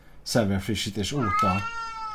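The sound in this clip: A video game cat meows with a choppy, wavering cry, then lets out a longer, sustained meow whose pitch slides slowly downward, loud and alone.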